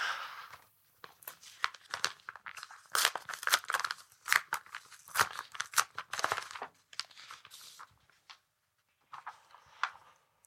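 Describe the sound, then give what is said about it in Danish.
A paper envelope being torn open and unpacked: a long run of crisp ripping and crinkling paper, followed by a quieter stretch of scattered rustles, with no voices. “Den ligger foran dig i en kuvert, og du skal pakke den ud og læse den højt.”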